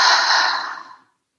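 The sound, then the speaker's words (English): A single deep exhale through the mouth, a soft breathy rush that fades away over about a second and ends in silence. “take a deep breath into the nose. Exhale, release out through the mouth.”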